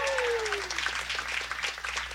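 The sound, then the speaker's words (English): Applause from a live jazz concert audience fills the stretch as steady, dense clapping at moderate loudness, with a faint held tone from the stage fading out early and no talk over it. “How about a round of applause for Bill Stewart”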